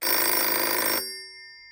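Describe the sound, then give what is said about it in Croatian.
An outgoing phone call rings once, a loud, steady burst of about a second that cuts off and leaves a faint tone dying away. “Sad ćemo u završnici emisije malo telefonirati. Poziv s povodom.”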